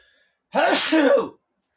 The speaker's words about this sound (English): Oh, bless you, man. Gesundheit.